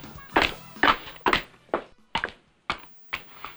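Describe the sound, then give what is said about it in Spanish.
Footsteps at night: a series of dull, evenly spaced thudding steps, roughly two per second, each a short, hollow knock with a quick decay, heard alone without talk. “Pisadas que yes, se acercan. En la noche.”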